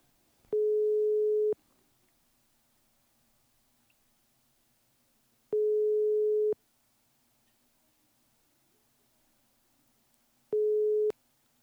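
Telephone call tones while a call is being placed: three identical steady mid-pitched tones, each lasting about a second, sound at even intervals of roughly five seconds. The gaps between them are near-silent with only a faint hum.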